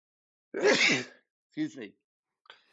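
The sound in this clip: A sneeze bursts out loudly and breathily, followed by a couple of short, softer vocal sounds and a faint trailing noise.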